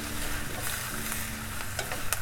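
Napa cabbage sizzles in a pot with garlic while soup is being made, a soft, steady frying hiss with a few sharp clicks of stirring near the end.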